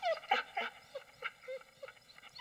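High-pitched, whining yelps from a small dog or puppy come in a quick cluster, followed by fainter, scattered squeaks. The calls are harmonic and fairly faint, with no voices heard.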